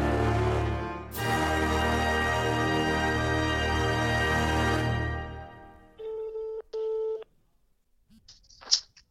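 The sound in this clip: Ringing tone of an outgoing phone call: two short, steady buzzing pulses with a brief gap between them, following a long, loud sustained tone and followed by a short faint noise.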